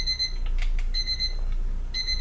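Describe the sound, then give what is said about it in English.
A kitchen timer goes off while wieners fry and grease drains, sounding repeated bursts of high, bright electronic beeps, loud and steady, with short pauses between the bursts and no talk. “Well, as you can hear, the timer's going off now”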